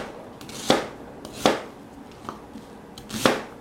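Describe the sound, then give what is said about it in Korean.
A knife dices an onion into cubes on a cutting board, making four crisp chopping knocks at a slow, even pace, with the third one softer, over a faint background hiss. “그래서 양파를 이렇게 깍둑썰기로 썰어주시고,”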